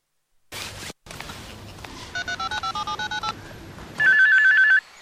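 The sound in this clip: A short burst of noise comes first, then a quick run of many regular dialing beeps as a call is placed. A steady electronic ringing tone follows and lasts nearly a second.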